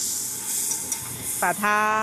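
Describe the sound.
Egg and wheat flour dough sizzle on a griddle while Taiwanese danbing is cooked, giving a steady bright hiss that swells slightly toward the end.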